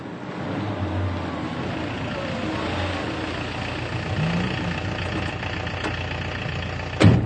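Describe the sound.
A taxi's engine idles steadily for several seconds, a continuous low rumble with faint knocking texture, and a brief sharp sound stands out near the end.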